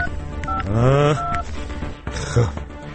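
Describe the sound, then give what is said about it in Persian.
A telephone number being dialed on a keypad, with a few short electronic beeps, brief vocal sounds overlapping in between. “بذار یه زنگ بزنم بهش ببینم این چی شد”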